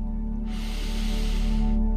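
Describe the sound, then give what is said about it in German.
A deep, slow inhalation through the nose, a soft airy hiss lasting over a second, heard over a low, steady humming drone. “Noch einmal tief einatmen.”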